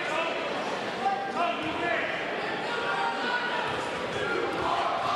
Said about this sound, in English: Takes his few dribbles and is about to attempt the second free throw.